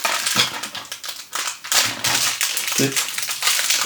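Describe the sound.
Crinkling and crushing of a fortune cookie's plastic wrapper as it is torn open and the cookie is broken. Many irregular crackles and snaps are heard, with brief voices among them.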